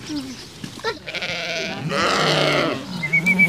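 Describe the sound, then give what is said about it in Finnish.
A lamb bleats at an animal park where children feed the animals: a couple of drawn-out, wavering bleats stand out over quieter rustling and faint background noise, with no talk. “Tiedeleirillä Vehmasmäen eläinpuistossa lapset ruokkivat puttipossua ja latelammasta.”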